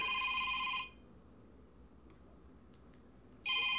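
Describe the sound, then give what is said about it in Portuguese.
A telephone rings in two bursts of bright, warbling electronic tones. The first burst is loud and lasts under a second. Near-silence follows, then the ring starts again at the end. “Meu telefone tá tocando.”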